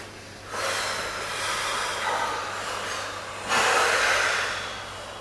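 Two long, steady exhalations of breath during a guided relaxation exercise, each a broad, airy hiss lasting a few seconds, with the second one starting louder.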